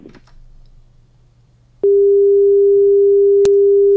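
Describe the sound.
A steady phone line tone follows a caller being cut off during a radio call-in. Faint line hiss gives way abruptly to a loud, even, single-pitched tone that holds unbroken to the end, with one brief click near the close.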